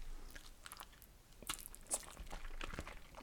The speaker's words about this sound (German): Ich jetzt ein so ein Stück gegessen.